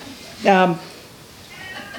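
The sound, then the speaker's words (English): A cat gives a single short meow, clear and tonal, lasting about a quarter second over faint steady background hiss, with quiet noise afterward. “I'm glad the cat has spoken because the cat reminded me.”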